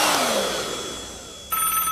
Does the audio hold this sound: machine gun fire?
no